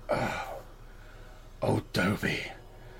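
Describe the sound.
A person imitates the rattling cough of someone after a long drag on weed: a long breathy exhale comes first, then a few rough, harsh cough bursts, all voiced by the mimic.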